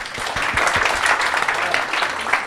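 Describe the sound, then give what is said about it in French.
Audience applause at a science bar talk on space exploration without contamination: steady, dense clapping that holds at an even level throughout, with faint voices now and then underneath. “Ça s'applaudit, je crois.”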